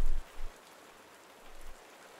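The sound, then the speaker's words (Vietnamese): Steady rain falls outside a house, a soft, even hiss that continues throughout, with a few dull low thumps underneath. “Ngoài trời mưa vẫn không ngừng rơi”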